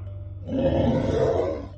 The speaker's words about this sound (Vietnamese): Thánh quỷ đau đớn gầm lên